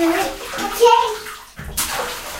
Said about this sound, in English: Don't like put the water on his face. So don't splash on his face.